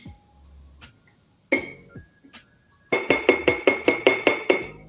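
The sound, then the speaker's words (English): A spoon clinks against a glass mason jar as it presses rosemary leaves down into olive oil. A few scattered knocks come first, then a quick, rhythmic run of many bright clinks. “I'm just gonna take my spoon and just gently press all of those leaves into the oil.”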